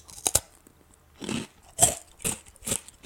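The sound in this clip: Crunching and chewing of a crisp, individually wrapped snack, with several sharp, loud bites and crackly crunches spaced unevenly across a few seconds, no talking over them.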